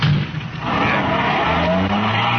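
A car pulls away with its tires skidding: a loud, steady rush of tire noise and engine drone that carries on without a break for a couple of seconds.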